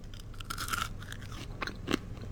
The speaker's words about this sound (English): What does it taste like? It's giving me the texture of chestnuts. Oh, yes, you're right. A little bit powdery. Yes. Also, it's like crunchy from the outside,